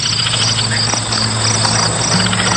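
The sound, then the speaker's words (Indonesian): Crickets and other night insects chirping at dusk, a dense, loud, continuous high trill of rapid pulses with no voices. “Sesekali terdengar bunyi jangkrik dan serangga malam lainnya.”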